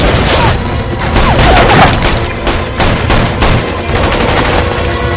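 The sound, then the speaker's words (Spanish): Rapid bursts of gunfire as a character shoots at a mercenary on a restaurant rooftop in an action thriller film, many loud sharp cracks in quick succession with heavy booming thuds underneath. “Ray corre hacia el restaurante mientras Frank dispara al mercenario de la azotea.”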